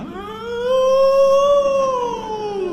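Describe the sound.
A human voice imitates a wolf howl: one long, loud, tonal howl that rises slightly, holds, then slowly falls, heard alone without talk.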